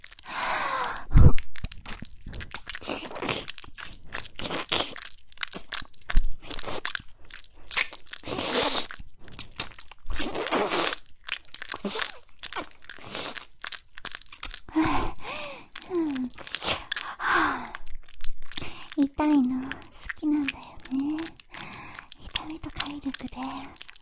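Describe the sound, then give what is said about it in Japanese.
Close, wet mouth sounds of an earlobe being bitten and nibbled, a steady stream of soft crunching bites and smacks. Faint breathy vocal sounds appear among them later on. “耳たぶ、噛んであげる。”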